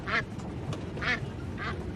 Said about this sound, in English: Why the fuck did you buy a duck?